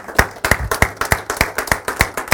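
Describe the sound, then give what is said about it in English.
An audience applauds the women present with many sharp claps in a steady, rhythmic beat, loud and nearly in unison. “Men, would you join with me and applaud every lady here?”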